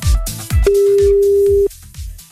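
A telephone ringback tone heard while a call is being placed: a single steady, mid-pitched tone holds for about a second before cutting off, with softer low sounds around it.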